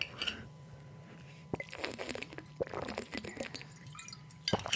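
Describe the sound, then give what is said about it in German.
Someone taking a sip of a drink: faint liquid slurps and small clicks and taps, scattered irregularly over a few seconds, with a sharper cluster of clicks at the end. “Aber vor dem letzten Traum muss ich auch noch einen Schluck trinken.”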